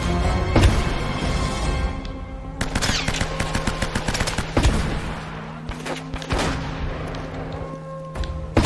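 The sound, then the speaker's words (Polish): Gunfire in a shooter video game: loud, rapid bursts of automatic fire with many sharp, crackling shots packed closely together and heavier booming impacts, continuing almost without pause throughout. “A ten skąd on strzela?”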